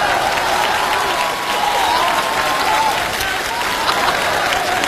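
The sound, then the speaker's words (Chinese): Dense, loud applause from an audience at a Beijing comedy sketch show, steady and unbroken from start to finish without any talk. “我都赶不上车了，这哥几个还鼓掌呢”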